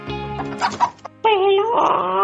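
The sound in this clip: A hen clucking: a few short, squawky clucks, then a longer, louder run of agitated cackling, loud and close, with a low steady tone underneath.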